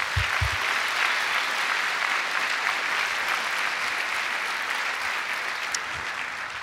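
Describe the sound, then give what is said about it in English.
Applause from an audience welcoming guests to an evening moderated dialogue event: a sustained wash of many hands clapping, fairly even throughout and easing slightly toward the end, with no one speaking. “So why don't we put our hands together and welcome them here tonight.”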